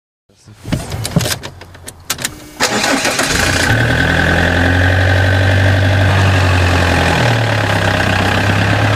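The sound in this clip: A car engine cranks with a few mechanical clicks, then catches and settles into a loud, steady running drone on a drive to Warsaw's airport; no voices.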